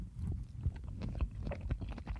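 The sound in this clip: Chewing while tasting food made with freshly prepared mayonnaise, heard as soft, moist, irregular mouth sounds with a few slightly louder bites. There is no talk.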